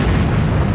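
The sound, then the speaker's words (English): The mother of all bombs, the biggest non-nuclear bomb, detonates in its first test in 2003, a loud, deep, sustained rumbling roar filling the whole clip with no pause or distinct break. “That's the sound of the mother of all bombs going off from its first test in 2003.”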